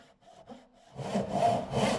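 A hand saw cuts through wood in a carpentry shop. After a quiet, faint opening, a few steady rasping strokes follow one another rhythmically and grow fairly loud.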